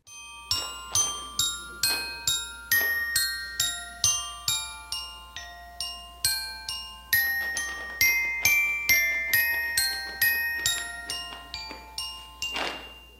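Dance music introduction of bright, bell-like plucked notes struck in a steady, repeated pattern. Each chiming tone decays quickly over a low sustained drone, growing fuller after the midpoint and ending in a dense, shimmering flourish.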